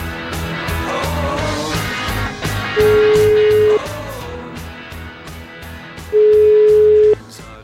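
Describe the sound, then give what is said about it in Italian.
Ringback tone of an outgoing telephone call: two steady, even-pitched beeps, each about one second long, separated by a pause, sounding over continuous background music. “Proviamo a sentire Sgarbone, vai, chiamiamo ragazzi, vai.”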